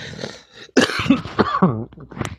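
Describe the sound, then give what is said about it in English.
Muffled coughing from a man who tried to stifle it, heard as a few short, throaty bursts in quick succession at moderate loudness. “excuse me, and I hope I didn't get that cough on the air. I tried to muffle it”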